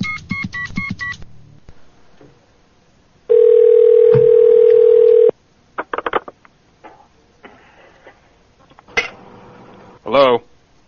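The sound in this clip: A telephone dial tone sounds while a call is placed back, a loud steady tone lasting about two seconds. A brief run of beeps comes before it, and a few short clicks and clatters follow.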